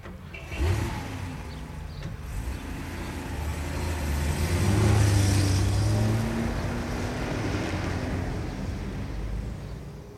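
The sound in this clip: A car driving off: a low engine hum that swells as the car pulls away, peaks midway, then eases off into a steady rumble, with no voices.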